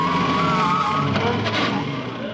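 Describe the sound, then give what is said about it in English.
A van engine drones and whines as the vehicle turns round and drives off, a steady mechanical roar with a wavering tonal whine that eases slightly toward the end. “Jones, look out where you're going. Don't panic. Jones, you're driving straight at the men. Great Scott, the van's turning round.”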